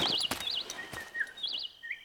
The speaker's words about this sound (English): He looks down at the bird and smiles wickedly and brings his new bird flute to his lips.